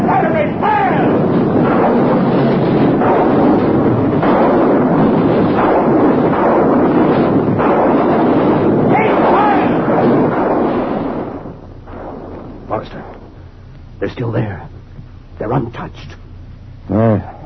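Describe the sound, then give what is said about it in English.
Artillery batteries firing in a loud, continuous rumbling barrage that fills roughly the first eleven seconds, then drops away, leaving voices speaking over quieter background noise. “Artillery batteries, fire! Fire!”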